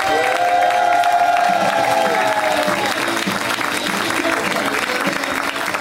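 A comedy club audience applauds a comedian as he is introduced, with loud, dense, sustained clapping and a cheer early on that continues evenly to the end.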